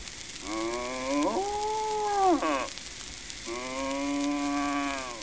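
A farm cow gives two long, harmonic moos over a faint hiss. The first slides upward, holds and breaks off; the second is steady and lower in pitch.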